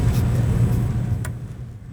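A vehicle leading the evening torch procession for Costa Rica's 205th independence anniversary rumbles by, a steady low engine drone that eases slightly toward the end.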